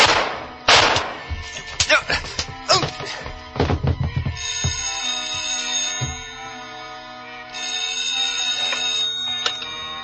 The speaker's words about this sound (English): Two shots, but he missed.